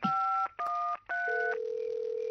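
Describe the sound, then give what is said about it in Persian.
Telephone dialing tones sound while a radio host calls a guest: three short, clean dual-tone beeps in quick succession, then a steady lower tone that holds on alone. “بذارید باهاشون تماس بگیریم ببینیم پاسخگو هستن.”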